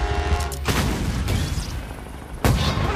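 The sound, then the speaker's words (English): An explosion erupts from an upper office floor of the Acer Tower, blowing out windows in a storm of glass and furniture: a loud rumbling roar with two sharp, heavy blasts, the second coming near the end. “Fire erupts from an upper floor of the Acer Tower. It billows towards the chopper and engulfs an office area in a storm of glass, furniture, and dockings. Windows are blown out by the concussion,”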